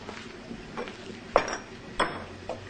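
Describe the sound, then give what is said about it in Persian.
A kitchen cabinet is opened, and a sugar bowl and two teacups are taken out while tea is being made with a samovar. A few soft porcelain clinks and knocks sound over a low background, with no talk. “در دیگه کابینت رو باز میکنه، قندون و دو تا فنجون در میاره.”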